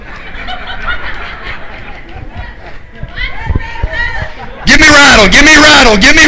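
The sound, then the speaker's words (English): A church worship team runs up onto the stage amid a steady crowd hubbub with chatter and laughter, a few dull footfall thumps breaking through before a much louder voice cuts in near the end. “Come on, Noah. Come on, run up on here. Give me rattle. Can you do it spontaneously? Come on, the whole worship team, run fast as you can. I'm timing you.”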